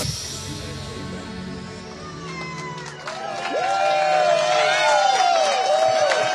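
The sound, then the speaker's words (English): Rowdy crowd at a live broadcast in East Palestine, with a murmur of overlapping voices that swells into louder cheering and high whoops about halfway through. “Welcome back to East Palestine. They're getting a little rowdy here.”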